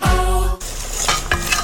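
Food fries in a pan in a new kitchen, a loud, steady hiss of sizzling with a couple of faint clinks. A short tone comes just before it.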